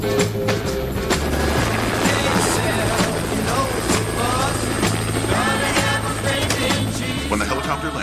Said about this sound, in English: A helicopter flies toward the quarry where the soldiers wait.